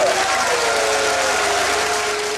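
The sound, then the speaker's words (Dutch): Applause mixed with booing from delegates at a D66 party congress: dense, steady clapping with a sustained, sagging vocal boo beneath, easing slightly toward the end. “Applaus en boegeroep.”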